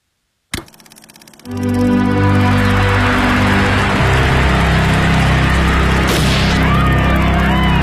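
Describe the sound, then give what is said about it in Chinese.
A gunshot in archival news footage of a presidential motorcade shooting: one sharp, abrupt crack, then a loud, dense, rumbling wash of noise that swells and carries on steadily to the end, with no clear talk. “但紧接着，第二声枪也响了。”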